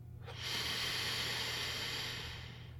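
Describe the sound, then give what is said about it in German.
A man takes a deep, slow inhale through the nose while leaning close to smell the sweet scent of shampoo. The soft, breathy hiss swells and then fades over about two seconds, quiet and alone with no talking. “Tief atme ich den süßen Duft deines Shampoos ein.”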